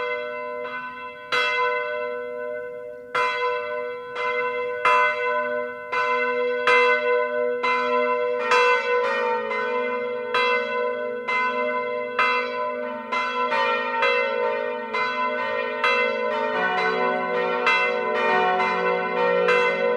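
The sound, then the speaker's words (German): Several bronze bells of a Catholic parish church in a Swabian village ring the noon peal. Many resonant strikes follow in a steady rhythm, their tones overlapping into a rich, sustained shimmer that grows fuller toward the end, with no voices. “Es ist 12 Uhr. Das Mittagsläuten kommt heute von der katholischen Pfarrkirche St. Afra im schwäbischen Lachen.”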